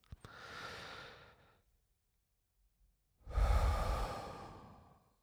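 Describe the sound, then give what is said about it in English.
Two slow, deep breaths taken deliberately for relaxation, separated by a few seconds of silence; the first is soft and airy, the second heavier and louder with a breathy rush. “And as I do that, I might take some deep breaths.”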